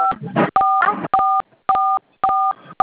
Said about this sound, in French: Vous touchez le clavier de votre téléphone qui dérange la communication.